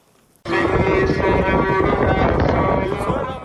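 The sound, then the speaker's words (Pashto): Strong wind blowing dust roars across the microphone: a loud, dense, rumbling rush that starts abruptly and stays steady, easing only slightly toward the end. “دوړی او سخت باد چلیږي”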